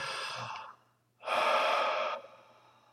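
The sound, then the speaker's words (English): Deep breathing during a guided relaxation exercise: two long, airy breaths separated by a brief pause, the second louder and fuller, with a soft breathy tail and no speech. “As you do a third breath and feel the body relax even more.”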